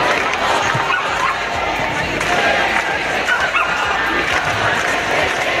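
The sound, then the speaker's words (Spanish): A protest crowd fills a street march in Valencia with a dense, steady roar of mingled voices and movement. The noise holds at an even, loud level throughout with no single sound standing out. “Este es el sonido de la marcha que comienza ahora mismo en Valencia.”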